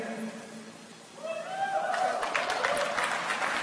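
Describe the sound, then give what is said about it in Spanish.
Audience applause at a motivational talk on the subconscious mind. A voice speaks briefly first, then clapping breaks out and swells into a steady, fairly loud patter that continues to the end. “Si me van a aplaudir, apláudanme bien, por favor.”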